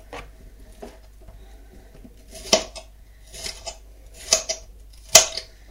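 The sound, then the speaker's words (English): Onions being chopped with a knife on a board in a kitchen while a meal is being cooked: a few sharp, irregular knocks over a faint steady background, with no talking. “That's the onions almost chopped.”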